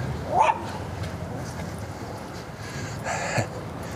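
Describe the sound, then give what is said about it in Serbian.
Dogs bark: a sharp yip near the start and another short burst of barking later, both over a steady background hiss. “Više ni ne čekaju da laju, sad već laju.”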